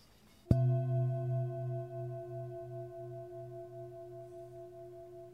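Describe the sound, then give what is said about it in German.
A singing bowl resting on the sole of a foot during a sound therapy session is struck once and rings with a sustained, warm, wavering hum that slowly fades. “Und jetzt sitze ich mal die Klangschale auf deinen rechten Fuß, auf die Fußsohle.”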